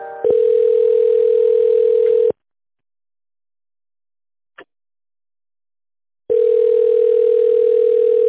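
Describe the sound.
A telephone tone plays while a call is transferred: two long, steady tones separated by a few seconds of silence, with a brief click in the gap.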